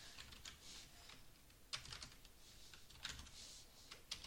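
Keys clatter on a computer keyboard as a Minecraft command is typed in, a faint, quick patter of clicks with a few sharper strikes standing out.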